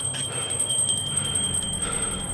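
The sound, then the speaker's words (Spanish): A small bell rung by pulling a cord tied to it, the bell raised above the ground over a grave, gives a steady, bright high ringing that holds through the whole clip with faint shimmering pulses. “Si el muerto estaba vivo, solo tenía que tirar la cuerda y sonar la campanilla.”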